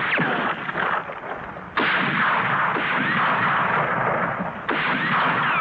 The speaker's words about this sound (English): No! Stop firing! We don't want him dead!